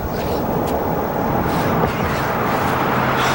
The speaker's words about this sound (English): He stops a passing truck.